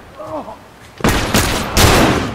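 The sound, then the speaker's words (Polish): Gunfire in a multiplayer shooter video game: a quiet voice comes first, then loud bursts of rapid automatic fire erupt, with a few heavy volleys overlapping one another. “Nie, bo coś strzelają jeszcze.”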